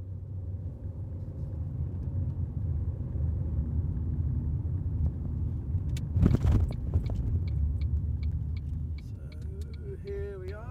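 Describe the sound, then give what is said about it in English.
Steady low rumble of a car driving down to Torquay in South Devon, engine and road noise constant throughout, with a brief louder burst of noise near the middle. “I'm driving down to Torquay in South Devon”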